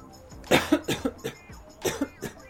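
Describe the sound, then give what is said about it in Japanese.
A person with a cough lets out a run of quick, fairly quiet coughs in two short clusters, each burst rough and breathy, with no talk between them. “ちょっと今日は咳が出ております。”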